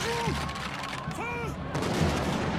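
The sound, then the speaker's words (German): Gunfire in a radio drama as the Bastille's defenders shoot at attackers storming it in 1789. Rapid cracking shots and volleys sound throughout, mixed with shouting voices. “Delaunay, der Kommandant der Bastille, ist Zivilist. Er lässt auf die Angreifer schießen, 89 Tote.”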